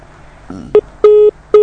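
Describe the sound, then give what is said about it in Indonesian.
Telephone keypad tones sound as a dropped call is redialed: three crisp electronic beeps in quick succession, the middle one held noticeably longer, following a brief soft burst of noise. “Terputus. Baik, Umu Anna, terputus sambungan teleponnya, dicoba kembali.”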